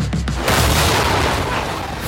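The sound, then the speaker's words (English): Explosion effects on a film set: a brief scatter of pops gives way to a loud, sustained booming rumble that holds steady to the end. “Why are things exploding?”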